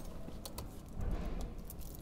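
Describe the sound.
Keys jangle and clink as a city light-rail track worker searches his bunch for one that fits a locked door. Several bright metallic rattles sit over a low, steady rumble.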